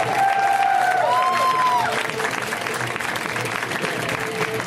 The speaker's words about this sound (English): Let's hear it right now from Mateo Lane, guys. Give it up for Mateo.